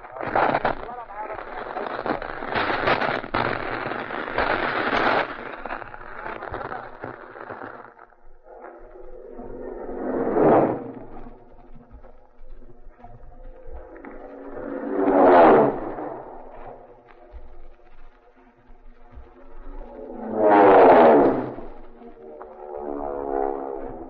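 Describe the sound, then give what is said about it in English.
Roaring engines of four Marine dive bomber aircraft in a dive bombing attack: a long loud roar, then three separate swelling and fading passes, with talk at times. “what you just heard was an actual dive bombing attack on our Vox Pop microphones by four Marine dive bombers”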